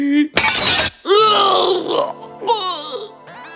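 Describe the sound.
Window glass shattering as a steel needle is shot through it: one short, sharp crash, followed by groaning, moaning vocal sounds.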